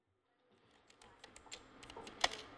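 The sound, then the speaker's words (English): Faint keyboard typing at a desk: irregular clicking keystrokes begin after a brief silence and grow gradually louder, with one sharper tap near the end. “sat at my desk, I thought of how idealistic and hopeful I was 20 years before when I first joined the staff of the World Bank, and how disillusioned I had become. And I began to type.”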